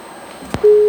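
A telephone tone sounds after a call to a phone-in line drops because of a network fault. A brief click comes first, then a steady, level tone begins abruptly and holds loudly to the end.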